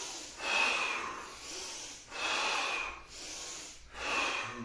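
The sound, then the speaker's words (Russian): Deep breaths drawn through the nose during a kriya yoga breathing exercise: four soft, airy rushes of air, each lasting under a second and separated by short pauses, fairly faint and without talk. “Вдох.”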